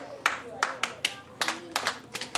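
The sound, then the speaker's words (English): Sharp hand claps from a new teacher trying to get a class's attention in a classroom: a series of crisp, loud claps in an uneven rhythm, some in quick pairs, with faint voices beneath. “When I clap, you need to clap after me. Your eyes need to be on me.”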